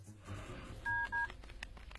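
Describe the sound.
Telephone touch-tone dialling as a call is placed: two short, steady beeps in quick succession, faint over low background noise.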